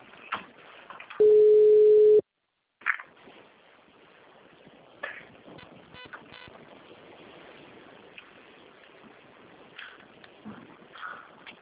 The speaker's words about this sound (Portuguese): Deixa eu já ligar para ela para incluir.